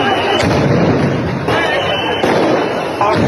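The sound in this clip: Loud cannon-like blasts go off at a tense street protest outside a parliament building. A few sharp booms cut through a constant roar of heavy noise.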